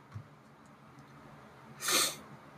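A single short sneeze from someone with allergies, fairly soft and heard alone against quiet background hiss.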